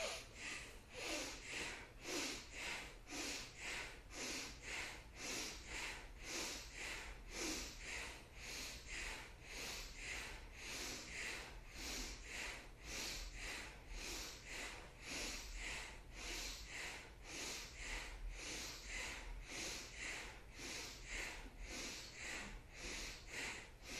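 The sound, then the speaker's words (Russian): Bhastrika bellows breathing during a yoga kriya session: many quick, forceful breaths pump in a steady, even rhythm, fairly faint and without talk. “Все, поехали, дышим бхастрику.”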